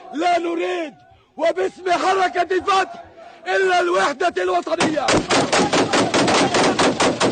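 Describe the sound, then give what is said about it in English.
Gunfire from guns fired into the air at a Fatah movement gathering: after a man's loud, raised voice, a rapid string of many sharp, cracking shots rings out in quick succession. “they're firing guns in the air.”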